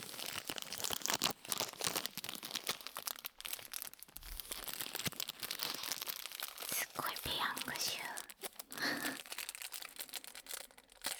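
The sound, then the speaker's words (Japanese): Disposable wooden chopsticks are unwrapped and split, with crinkly wrapper rustling and several sharp crackling snaps, accompanied by soft whispered talk. “ここで割り箸を開けたいと思います。この割り箸もいい音ですね。”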